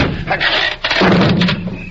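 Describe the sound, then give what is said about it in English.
A door is forced and caves in at a deserted ghost-town building, giving a loud, sustained crunching crash with heavy thuds and splintering noise that holds strong for about two seconds before easing slightly. “The door caved in.”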